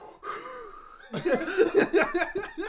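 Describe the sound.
A voice imitating someone drawing in smoke from a joint, a strained, pitched inhaling squeak lasting under a second, followed by a run of breathy chuckling bursts.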